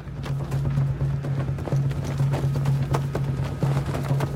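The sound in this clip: Hooves of horses ridden by a group of Picts beat in a quick, irregular patter of many thuds, running over a steady low droning tone.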